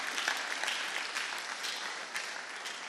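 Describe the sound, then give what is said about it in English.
A church audience claps its hands during a sermon. Many overlapping claps form a steady, bright wash that stays at an even level, with no voices. “Clap your hands for Jesus, somebody.”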